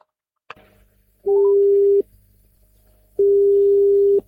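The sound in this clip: Telephone ringing tone as a call is placed: a short click, then two long, steady, mid-pitched tones of under a second each, separated by a silent gap.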